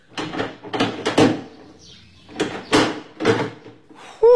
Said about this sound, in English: And you, young lady, unlock that door and let the inspector out.